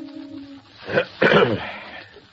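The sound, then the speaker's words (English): A man clears his throat with two short, rough, rasping bursts close together. No other sound is heard. “Fingering one of the clippings, Vincent Kirby clears his throat.”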